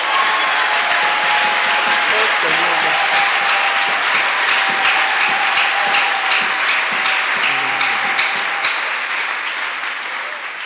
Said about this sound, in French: Est-ce qu'on peut acclamer pour le Seigneur?